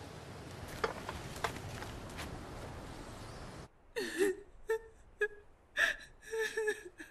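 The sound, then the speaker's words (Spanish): A woman cries in uneven bursts of gasping, whimpering sobs, following a stretch of steady hiss. “No llores, mamá.”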